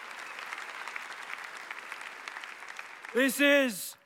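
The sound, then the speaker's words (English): Audience applause at a church service as the audience thanks a group of helpers. Steady, dense clapping carries on for about three seconds before a voice briefly cuts in over it. “Hey, can we just put our hands together and just thank all of these guys?”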